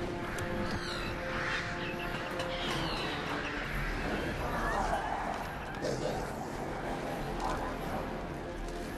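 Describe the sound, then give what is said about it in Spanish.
A flock of black birds circles in the air, cawing and flapping in a dense, continuous mix with other layered sound beneath. “La bandada de aves negras se adentra en las cavernas de Isengard. Saruman recibe la información de los pajarracos que revolotean frente a él trazando círculos en el aire.”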